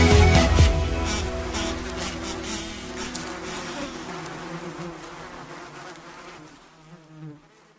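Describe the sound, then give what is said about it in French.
Buzzing of a bee-like insect: a continuous, raspy drone that is loudest at the start and slowly fades away. “on va bourdonner, on va faire demi-tour à droite, demi-tour à gauche, on va bourdonner”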